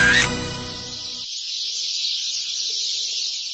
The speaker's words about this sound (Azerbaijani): Sərçə cıvıltısından qulaq tutulur. Yayın ilk günləri sərçələrin bala çıxardan dövrüdür.